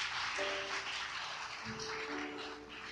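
Audience applause at a prayer gathering, a faint, steady wash of clapping that continues throughout without a clear beginning or end.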